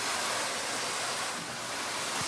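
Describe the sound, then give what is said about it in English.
Water rushes steadily over live crabs being rinsed after barnacle removal in a large warehouse, a loud, unbroken hiss with no voices. “He removes the barnacles from the very much live crabs. You rinse them.”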